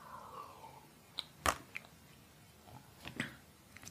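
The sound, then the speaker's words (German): Faint mouth sounds of someone taking a quick drink: a few soft clicks and small swallows, quiet and sparse with no talking. “Und zwischendurch muss ich auch mal kurz was trinken.”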